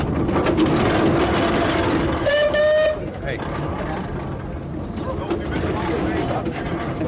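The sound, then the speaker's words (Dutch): A steamroller rumbles as it is driven along a road, a steady dense engine drone throughout, broken by one brief harmonic whistle toot near the middle. “Nou, geen strepen trekken, maar rijden met een stoomwals, mevrouw Jorritsma.”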